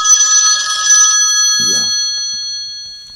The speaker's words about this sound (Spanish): Volvieron y están llamando.